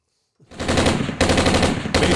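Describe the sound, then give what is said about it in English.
Rifle gunfire sound effect: rapid automatic shots fire in loud continuous bursts, broken by two very short gaps. “how about hit the rifles one more time for us?”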